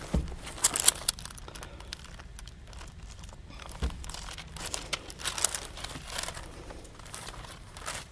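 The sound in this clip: Bible pages being turned: a soft, ongoing rustle and crinkle of paper, with several sharper flicks of pages scattered throughout.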